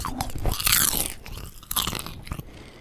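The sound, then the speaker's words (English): Crunching of buttery, salty, crisp popcorn being eaten close up, a few sharp crunchy bites and chews in quick succession, loud against quiet with no talk. “I'm about to eat some delicious buttery popcorn.”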